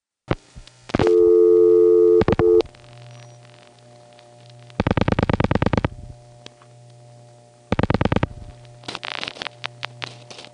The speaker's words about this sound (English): You'll notice that you start to hear the ring, and then the ring is gone, and then the ring comes back, and then finally the recording gets around to starting up.